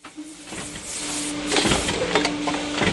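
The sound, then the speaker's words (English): Plastic moulding machines run flat out on the factory floor at Akron Plastics on Auckland's North Shore, giving a continuous mechanical whir with a steady humming tone and repeated hissing clicks and clunks. “The moulding machines are running flat out here at Akron Plastics on Auckland's North Shore.”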